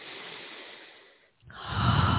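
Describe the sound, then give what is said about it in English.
A deep breath drawn in during a guided meditation: a soft airy breath fades into a moment of near silence, then a fuller, louder breathy rush swells and holds to the end. “Take a deep breath.”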